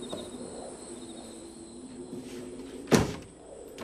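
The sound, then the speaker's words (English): A cottage door being closed gives a single sharp, brief knock near the end, standing out against a quiet background of faint insect chirping and a low steady hum. “Cleveland withdraws from her, returns to his cottage, and closes the door.”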